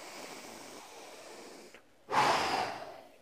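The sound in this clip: A voice imitates the deep breathing of someone sleeping peacefully: a long, soft, hissing breath, a short pause, then a louder, rushing breath.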